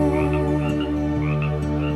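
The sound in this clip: Frogs croak in a dense, continuous chorus of pulsing trills, steady and fairly loud throughout, with no talking.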